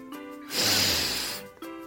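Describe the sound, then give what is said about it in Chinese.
A voice imitates a big bad pig taking one long, deep sniff to smell flower fragrance, a breathy rushing inhale set between brief voiced sounds. “这个香味让大坏猪吃了一惊，于是他又吸了一口气，然后又一口气。”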